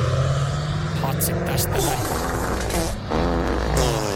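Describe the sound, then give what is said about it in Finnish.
A Tesla pulls away amid passing traffic, with steady dense vehicle noise and another engine rumbling nearby, while a person speaks briefly over it. “No ei, tuossa oli korvetta takana, mutta nyt lähtee Tesla tässä vieressä.”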